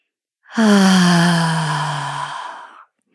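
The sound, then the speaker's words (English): A long, audible exhale during a breathing exercise, voiced like a sigh, its pitch gliding slowly downward before trailing off, heard alone in silence. “Deep breaths in through the nose. And when you're exhaling, with an exhale that is audible,”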